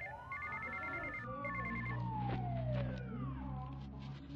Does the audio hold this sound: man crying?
no